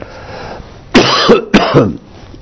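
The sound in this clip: Two harsh, loud coughs in quick succession, set off by a drop of water going down the throat. Each cough breaks into a couple of rough bursts, with no talk.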